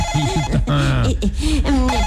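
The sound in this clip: A telephone rings with a warbling electronic ringtone, its tonal notes bending up and down in a repeating pattern over steady background noise throughout.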